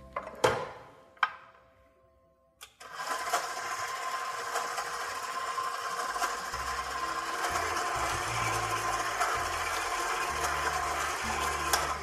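A stand mixer runs on its lowest stir speed, mixing dough in a bowl: two sharp clicks, then a steady, loud whirring motor hum that continues evenly to the end, with no voices.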